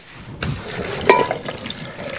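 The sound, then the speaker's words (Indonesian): Water is poured into a blender over fruit for a juice. It starts with a sudden splash, then a continuous gurgling, bubbling flow that holds steady at moderate loudness throughout. “Oke, coba masukkan semua. Kemudian kita tambah air. Tambah air. Air dulu ya.”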